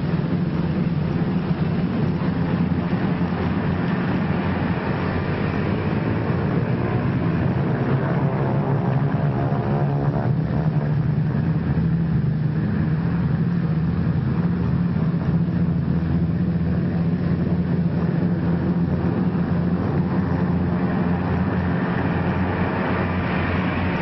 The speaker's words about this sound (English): More than a score of United States liberators warm up for the takeoff from a field somewhere in North Africa.